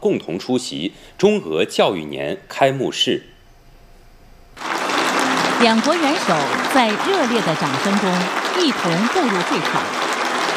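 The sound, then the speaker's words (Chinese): Warm applause in Beijing's Great Hall of the People as the Chinese and Russian heads of state enter for an education-year opening ceremony. A voice speaks first, then after a brief pause sustained, even clapping begins and continues under further talk. “两国元首在热烈的掌声中一同步入会场。”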